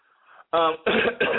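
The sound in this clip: Someone coughs and clears their throat in a few short, harsh bursts, loud and close together.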